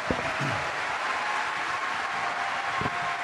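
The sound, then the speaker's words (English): Applause from an audience for the 2013 Pro Football Hall of Fame inductees: dense, steady clapping that fills the whole stretch at an even level, with a few dull low thumps mixed in. “All right, that concludes our program. Give these guys a hand, everybody.”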